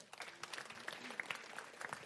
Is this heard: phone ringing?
no